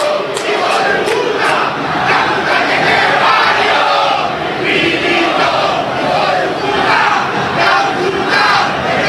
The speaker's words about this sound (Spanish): la desesperanza, la bronca, la impotencia de los hinchas de Racing. Escuchen el público de Racing.